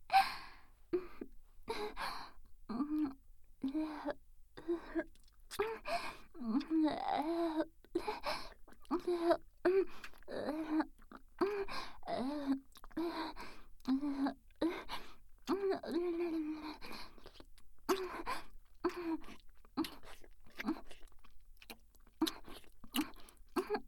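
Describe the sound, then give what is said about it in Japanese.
Wet licking and mouth sounds repeat many times in an uneven rhythm. Soft breathy sighs and small vocal moans come between them, at a fairly quiet level. “では精一杯の感謝でもって舐め取らせていただきますね。”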